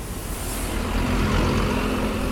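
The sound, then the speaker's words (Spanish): Evening road traffic in the city centre of Santiago: a continuous, loud roar of passing cars and heavier vehicles with a deep low rumble and a faint steady engine hum underneath, holding level throughout. “En general el tránsito en el centro de Santiago a esta hora, 7 y media de la tarde,”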